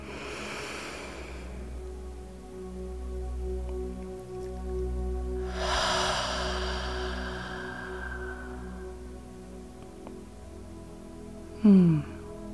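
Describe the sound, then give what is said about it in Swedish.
Deep breathing during a guided relaxation exercise, in through the nose and out through the mouth: two long, soft, airy breaths separated by a quiet pause over a low steady background. “En gång till, andas in ordentligt genom näsan. Ut genom munnen.”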